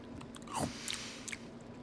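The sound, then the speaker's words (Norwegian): Soft wet chewing and mouth sounds as someone tastes tahini, quiet and irregular, with a few brief smacks and no talk. “Jeg må smake litt på den tahinien.”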